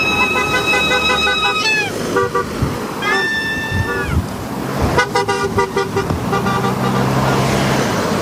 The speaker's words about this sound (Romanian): Zeci de șoferi au marcat momentul deschiderii noului tronson de autostradă cu claxoane, vuvuzele și urale.